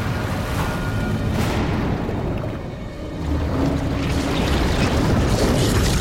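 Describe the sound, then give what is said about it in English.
An underwater explosion tears across the deck of a stricken ship as a loud, broad, continuous roaring rumble. It dips briefly midway, then swells back to full force and holds to the end. “Under the water, another explosion rips across the deck of the stricken ship.”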